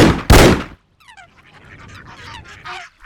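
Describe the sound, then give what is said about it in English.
Two pistol shots are fired almost at the same moment, making one loud, booming double blast that cuts off abruptly. Honking bird-like calls follow. “Both brothers raised their arms, took aim with their pistols and fired almost at the same time.”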